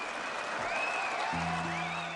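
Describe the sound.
Concert audience in Leipzig applauding and cheering, a dense, continuous roar of clapping with scattered whistle-like shouts, while a low steady tone enters near the end.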